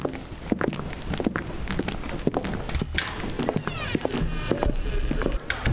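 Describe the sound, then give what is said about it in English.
Footsteps of three people walking in together, many overlapping thuds and scuffs at an irregular rhythm, mixed with a busy, noisy background. “Samantha Stone and Carl Simmons arrive to Simmons' as Chief Shepherd gets there, and then all three of them walk in.”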